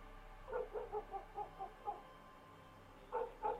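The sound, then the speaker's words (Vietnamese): Village dogs barking, a quick run of faint, rhythmic barks, then a short pause and two more barks. “bầy chó trong thôn sủa lên váng cả trời.”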